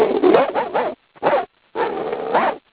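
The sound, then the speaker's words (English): A person imitating a dog barking, making playful voiced bark-like yelps in a few bursts, some drawn out and wavering, separated by short silent gaps. “so I decided to, you know, do some sounds, and so I decided to bark a little bit”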